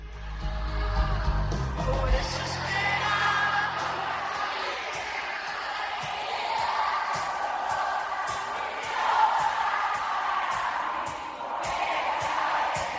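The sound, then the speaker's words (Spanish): A concert audience sings along in chorus, a sustained, blended mass of voices carrying the melody at a moderate, steady level for over ten seconds. “La radio no se pueden ver los vídeos, pero el público no está cantando por casualidad. Se hace mucho en los conciertos, pero lo hacían porque tú no podías seguir cantando.”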